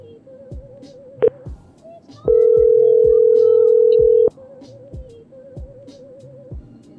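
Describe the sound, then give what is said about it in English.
A voicemail recording tone sounds as a loud, steady, unbroken beep held for about two seconds. A brief blip comes before it and softer warbling tones come before and after it. “Record your message after the tone.”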